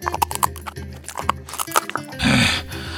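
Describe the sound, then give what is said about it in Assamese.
A cat crunching on a pebble: a run of rhythmic gritty crunching and chewing sounds, then a short noisy rasping burst. “টলকা মাৰি মেকুৰীয়ে শিলগুটি এটা মৰক মৰক শব্দ কৰি চুবাবলৈ ধৰিলে। কি চুবাইছা হে বন্ধু তুমি?”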